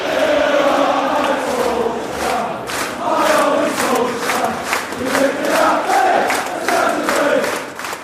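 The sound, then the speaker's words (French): A football crowd at Old Trafford chants in unison, singing praise for the Norwegian manager after a historic win over Manchester City. The massed voices swell in loud, rhythmic waves that carry on throughout. “Le public d'Old Trafford qui chante les louanges de l'entraîneur norvégien Ole Gunnar Solskjær”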